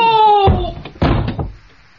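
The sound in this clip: A door is slammed shut during a rowdy schoolboy scuffle in a radio comedy. A short shouted voice is followed by two heavy, resonant thuds about half a second apart.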